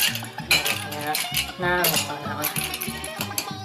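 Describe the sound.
A spoon stirring drinks in glasses: many quick, bright clinks and rattles of metal against glass in an uneven, busy rhythm, moderately loud.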